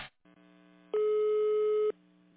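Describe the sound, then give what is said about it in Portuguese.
A telephone ringing tone while calling a resident from a building's front desk: one steady electronic beep lasting about a second, set against a faint low hum. “Vou ligar para o morador. Vou desligar, mas retorno para você em breve. Aguarde, por favor.”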